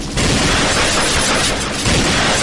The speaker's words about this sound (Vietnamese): Bọn săn trộm phát hiện phía sau còn có xe, lập tức chia hai người nổ súng ngăn chặn.